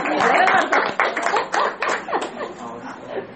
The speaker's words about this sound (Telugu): విన్న మీ అందరికీ చప్పట్లు కొట్టరా, చెప్పిన నాకు కొట్టాలిగా.